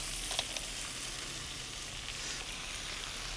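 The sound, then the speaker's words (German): Brown crabs sizzle as they go into a pan of roasting carrot and celery. A steady, faint frying hiss with small crackles carries on evenly throughout, with no talk. “Und jetzt kommen hier so die Taschenkrebse dazu.”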